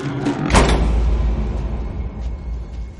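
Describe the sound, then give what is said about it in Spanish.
A door being shut: one sharp, loud thud, followed by a low rumbling tail that slowly fades. “cierra la puerta”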